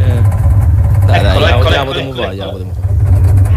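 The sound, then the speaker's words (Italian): An engine idles with its idle speed set a little low, likened to an old three-wheeled motocarro, giving a steady low rumble throughout while people talk over it. “C'è il minimo un po' basso. Vabbè. Dai. Sembra il motocarro della buonanima di mio nonno”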